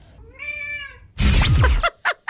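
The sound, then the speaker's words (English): A pet cat gives one drawn-out, tonal meow that rises and then falls. It is followed by a burst of louder, rougher noise and two short, sharp sounds, with no talking. “So that is your not-so-psychic cat, Penny. We don't know what she said in that meow.”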